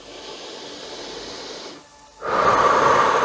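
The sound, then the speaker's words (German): Slow, deep breathing in and out during a guided relaxation: a long soft airy exhale, a brief quiet pause, then a stronger breathy inhale, all without speech. “Lass uns nun gemeinsam ein- und ausatmen.”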